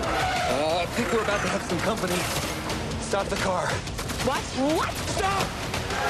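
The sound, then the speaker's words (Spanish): A car swerves hard with its tires skidding, giving squealing, wavering tire tones over a dense, loud roar of road and engine noise that continues throughout. “La mujer que va manejando da un volantazo y lo sacude dentro del vehículo.”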